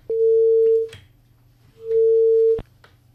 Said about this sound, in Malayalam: ആ call drop ആയി എന്ന് തോന്നുന്നു.